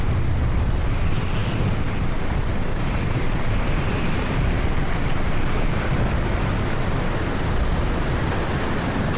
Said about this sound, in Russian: Поднимаются волны. Яхта плывет, немного пошатываясь.